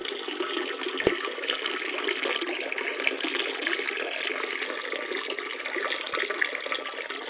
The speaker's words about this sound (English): That sounds like a dual stream. You weren't whacking off before you took that piss, were you?